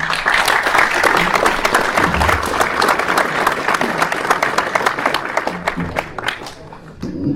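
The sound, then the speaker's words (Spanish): Loud, sustained audience applause at a school anniversary conference welcoming a professor, with dense clapping throughout that thins slightly near the end. “el profesor Juan Manuel Rendón Esparza, para quien pido un fuerte aplauso.”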